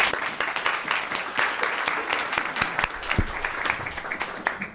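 Steady applause from an audience welcoming a guest, a mother of twins in the Anchorage School District, with dense overlapping claps at an even loudness throughout.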